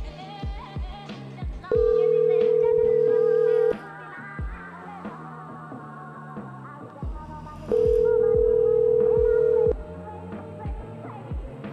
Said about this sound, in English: I'm just gonna dial right now.